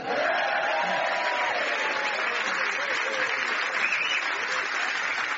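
Studio audience applause greeting panelists as they are introduced: a steady, even wash of many hands clapping that holds at a constant level from start to finish.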